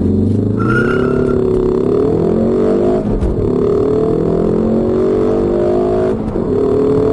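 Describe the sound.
Engine of a facelifted, front-wheel-drive Ford Focus ST accelerating under heavy throttle: a loud, sustained drone whose pitch climbs steadily, broken twice by brief dips before rising again.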